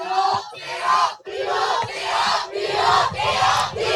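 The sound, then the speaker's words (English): A Beaver student section roars at a football game as the Broncos take the field on offense, a loud sustained crowd yell with a few brief dips. “Beaver student section getting a little bit loud here as the Broncos start on offense.”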